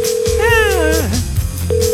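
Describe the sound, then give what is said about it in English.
A steady telephone tone plays as a call is placed. It breaks off at about one second and returns near the end, while a voice talks and slides down in pitch over it. “Let's call her and stir that up. There we go. Think she'll answer?”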